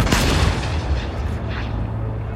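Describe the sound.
A howitzer loaded with powder, hay and grapeshot fires with a heavy blast. A dense, sustained roar and rumble follows and carries loudly through to the end.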